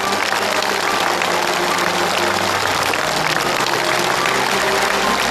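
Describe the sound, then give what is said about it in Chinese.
A studio audience gives a warm round of applause, dense and even clapping that stays loud and steady from start to finish with no voices above it. “我们为他热烈的鼓一次掌。”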